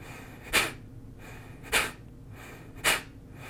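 A Kapalabhati breathing technique demonstration: three short, forceful, hissing breaths through the nose, evenly spaced about a second apart, with quiet pauses between them.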